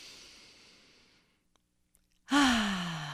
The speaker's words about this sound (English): let's just take 1 minute to breathe in through your nose.